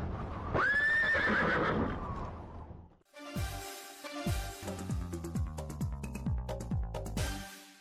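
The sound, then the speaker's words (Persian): A horse neighs loudly in a long, high whinny at the start, linked to a traditional equestrian sport of northern Afghanistan. A run of rhythmic, tonal percussive hits follows the neigh. “بله، صحبت از اسب است. اسب این یار دیرین بشر”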